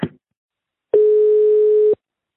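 A steady, single-pitched telephone dial tone follows a receiver being hung up. A short click comes first, then a pause, then the flat, even tone sounds for about a second and stops abruptly.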